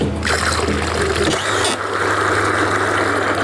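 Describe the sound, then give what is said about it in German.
A calf feeding machine in a barn mixes milk powder with water every second. It makes a loud, steady mechanical whir with ratcheting clicks and trickling liquid, and a low hum settles in partway through. “Dort, wo die Maschine im Sekundentakt das Milchpulver mit dem Wasser vermischt.”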